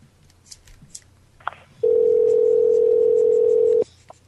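A telephone dial tone as a call to a pizza shop is placed. A few faint clicks come first, then a loud, steady single-pitched hum holds for about two seconds and cuts off abruptly.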